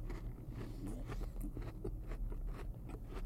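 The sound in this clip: Chewing a big mouthful of cookie with a thick spread produces a steady run of many moist, crunchy bites and mouth noises, at a moderate level throughout.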